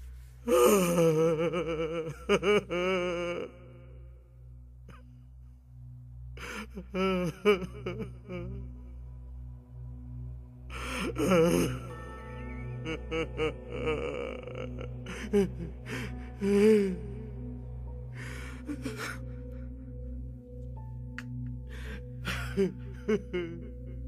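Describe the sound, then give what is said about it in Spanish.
A man crying like a child in a radio drama, sobbing and wailing in uneven voiced bursts broken by gasps and short pauses, rising again in several outbursts. “Es su idea fija. Llora como un niño.”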